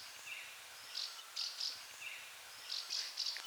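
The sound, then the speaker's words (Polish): House martin contact calls, not song, come from birds in flight: faint, short, high chirps in two loose groups of several calls each, over a quiet background. “Jaskółki oknówki lecą. To nie był śpiew, to był głos kontaktowy.”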